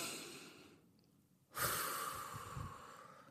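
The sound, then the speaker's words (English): A deep breath drawn in during a guided breathing moment: a soft airy hiss, then a sudden, fuller rush of inhaled air that holds steady and slowly tapers off, with no talking. “We're gonna take a deep breath in. Come on, y'all, breathe with me, y'all.”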